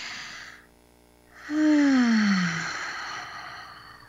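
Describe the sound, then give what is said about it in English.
Breathing in and out during a guided holiday breathing exercise: a short breathy intake, a pause, then a long sighing exhale whose voiced tone slides downward before trailing off into airy breath. “let's take an inhale and exhale together, all of us out there.”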